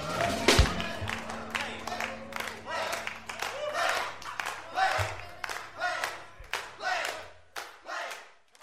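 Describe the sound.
Studio audience noise at the end of a track: rhythmic shouts and bursts of clapping from a crowd over a low sustained musical tone that fades out, leaving spaced claps and cheers.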